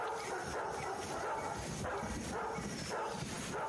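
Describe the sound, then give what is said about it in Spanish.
Dogs start barking, a few faint, scattered barks and yips set against steady background noise. “seguidamente los perros que empiezan a ladrar”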